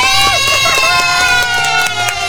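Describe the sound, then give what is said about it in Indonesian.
Children cheer and clap as winners of a family competition are announced. Loud, sustained high-pitched shouting runs throughout, with scattered sharp claps. “Tepuk tangan dong.”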